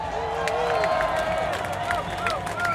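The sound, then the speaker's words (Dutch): Crowd applause at a street march, a steady dense wash of clapping and cheering with voices calling out over it, holding level throughout. “Een applaus voor de Moody Crews!”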